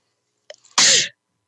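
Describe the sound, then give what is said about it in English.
A single loud human sneeze, preceded by a faint, brief intake of breath. The burst is sharp and short and ends abruptly in silence. “Sorry, I'm going to sneeze.”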